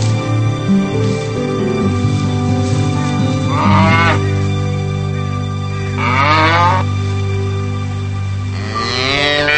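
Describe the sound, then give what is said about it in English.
A calf lying in a mud hole gives a few drawn-out, wavering bawls that bend in pitch, heard over a steady, sustained humming drone. “He spots a baby calf lying in a mud hole.”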